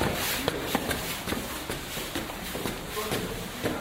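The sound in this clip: People walk upstairs with steady, evenly spaced footfalls under a broad noisy background, while people talk.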